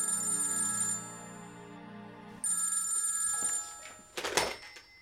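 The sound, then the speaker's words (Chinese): A telephone rings in a company chairman's office. The sustained electronic ring has bright overtones and is moderately loud with no talk over it. It drops away briefly, then starts up again. “董事长室的电话又是铃铃铃地响起”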